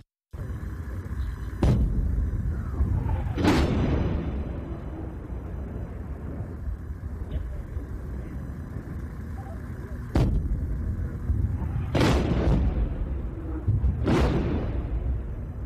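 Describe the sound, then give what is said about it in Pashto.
Gunfire and artillery at the Lebanon–Israel border: five loud, sharp blasts with ringing, decaying tails stand out over a constant low rumble, spaced unevenly with a long gap in the middle. “دا د لبنان او اسرائیلو د سرحد پوغدو کې د ډزو اوازونه دي.”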